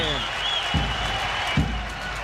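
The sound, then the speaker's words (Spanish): An audience gives an ovation to contest participants, with a steady wash of clapping throughout and two soft thumps standing out partway through. “Bueno, os merecéis todos una gran ovación por la maravilla”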